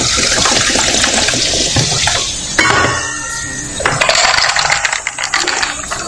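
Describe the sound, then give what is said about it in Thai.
Soda poured into a glass gives a loud, continuous fizzing, splashing hiss for about six seconds, with some rattling clatter mixed in. “เติมโซดาหน่อย”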